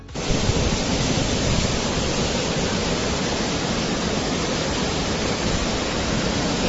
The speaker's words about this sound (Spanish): Comparten el vídeo de la fervenza da graña de Forcarei. Dicen baixa espectacular de las chuvias das últimas semanas.